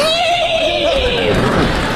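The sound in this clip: A human voice imitates a horse's neigh in one loud, drawn-out whinny whose pitch wavers and then drops toward the end, heard alone.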